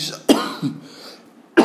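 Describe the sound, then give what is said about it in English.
Phlegmy coughing during a Bible reading: two sharp, loud coughs with a smaller one between them, separated by short pauses. “It's not coronavirus. I'm coughing. I just have some slight issues with phlegm and all that.”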